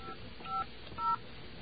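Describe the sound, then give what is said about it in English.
Touch-tone telephone dialing: two short DTMF beeps of a number being keyed in, each a brief dual tone, heard through a narrow phone line over a faint steady background hiss. “Now we're going to dial away. And what number should we call? We'll call this number.”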